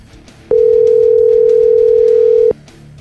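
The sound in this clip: Telephone ringback tone heard while calling someone: one loud, steady, unbroken tone that holds for about two seconds, then cuts off, with nothing else around it.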